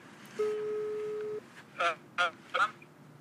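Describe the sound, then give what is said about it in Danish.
An outgoing telephone call ringing out: one steady, low-pitched ringback tone lasting about a second, then a short pause and a voice speaking briefly. “forsøger vi at ringe op til ham”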